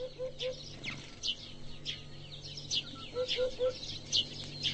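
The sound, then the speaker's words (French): Farmyard birdsong: busy, high chirping of sparrows, with a hoopoe that nests in a hole in a wall giving two runs of three low, soft hooting notes beneath the chatter. “Une cour de ferme avec ses moineaux. Une huppe a fait son nid dans le trou d'un mur. Elle y revient.”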